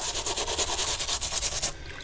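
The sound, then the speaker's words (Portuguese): Brisk, rhythmic scrubbing as sneakers are washed: many quick rasping brush strokes in a steady back-and-forth pattern, fairly loud and continuous, with no talking. “Como você pode ver, eu tô lavando tênis aqui no seu ouvido.”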